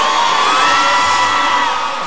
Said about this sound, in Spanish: El aplauso, un aplauso para nuestro querido Arturo.